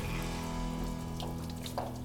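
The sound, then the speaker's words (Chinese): Water running from a kitchen tap into a sink for washing dishes, a faint, steady hissing flow with a low constant hum underneath. “我来，我真的很想洗。嗯， 我很喜欢洗碗。”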